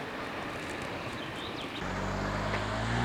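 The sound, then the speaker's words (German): A car drives past with a broad, steady rush of road noise. Midway, a low engine hum emerges, and the sound swells slightly louder toward the end. “Noch eben das Auto abwarten. Jetzt kommt das nächste Auto. Noch ein Auto abwarten. Kommt wieder ein Auto.”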